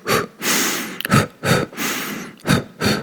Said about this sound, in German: Deswegen einatmen, ausatmen.